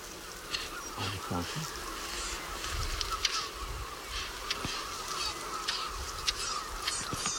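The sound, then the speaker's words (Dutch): Several small birds in a family group give sharp, dry ticking calls. Many short ticks fall irregularly over a steady hiss of background noise. “Je hoort ze tikken? Ik hoor ze tikken. Ja, je hoort er meerdere vogels tikken, dus dit moet dat familietje zijn.”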